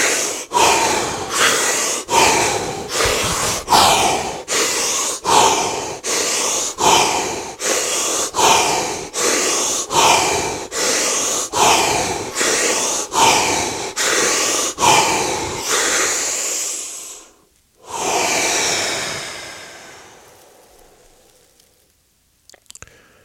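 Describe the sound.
Deep breathing during a breathing exercise: many quick, forceful breaths in a steady, even rhythm, then a brief pause and one long, drawn-out breath that fades into quiet.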